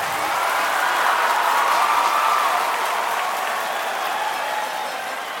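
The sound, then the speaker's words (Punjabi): Audience applause for a singer at a live music event: dense, steady clapping from a large crowd that holds loud for about five seconds, easing slightly toward the end, with no voices over it. “दोस्तों एक बार कमल हीर लई जोरदार ताड़ी please”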